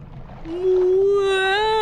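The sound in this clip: A human voice imitates a whale call with one long, drawn-out, low moaning tone. It swells in loudness, rises slightly in pitch and carries rich harmonics, and sounds alone.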